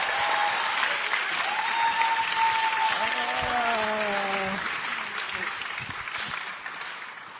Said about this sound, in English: 我们用最热烈的掌声来欢迎他。 I just welcome her up.